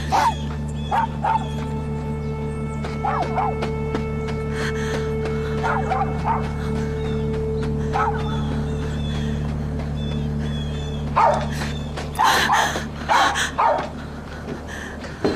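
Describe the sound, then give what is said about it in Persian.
A dog barks and yips in many sharp, irregular bursts, with whimpering between them over a steady low hum. The barking grows louder and more crowded toward the end. “پسر خوب، آفرین سگ خوب.”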